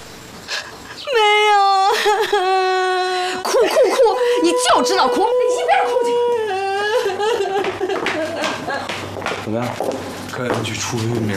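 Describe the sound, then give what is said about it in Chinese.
A person wails and sobs in drawn-out, strongly pitched cries that bend and waver. The crying is loud and continuous for about eleven seconds, with breathy catches between the longer moans. “哭哭哭！你就知道哭，你一边哭去。”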